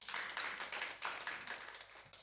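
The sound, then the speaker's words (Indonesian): A church audience clapping hands during a worship service, rapid and steady rhythmic claps, fairly faint, with no voices. “Tepuk tangan lebih baik lagi untuk Tuhan.”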